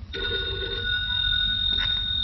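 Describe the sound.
A telephone rings during a tense domestic scene, giving a steady, high electronic tone held for the whole clip over a low, constant rumble.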